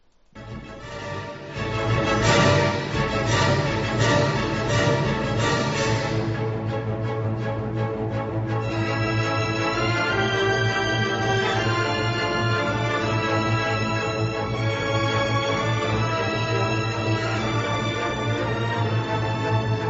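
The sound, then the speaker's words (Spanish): Orchestral music playing a zapateado intermezzo from a zarzuela, full and steady in level, with sustained string and wind textures and no voices. “como hemos estado con La Revoltosa y el maestro Chapí, vamos a escucharle el intermedio para que ustedes le escuchen, que seguro que les suena. Es un zapateado maravilloso. Y suena así.”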